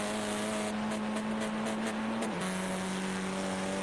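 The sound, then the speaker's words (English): Race car in an endurance race passing along the Döttinger Höhe straight: a faint, steady engine drone whose pitch drops sharply partway through as the car goes by, then holds at the lower tone. “And here comes the Schnitzelheim car to go by them.”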